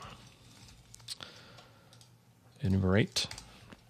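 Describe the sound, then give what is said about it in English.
Code being typed on a computer keyboard, heard as scattered soft clicks and taps. A short voiced sound breaks in near the end. “So if I type enumerate here,”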